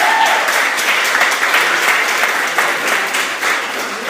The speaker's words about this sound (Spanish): damos un aplauso de bienvenida.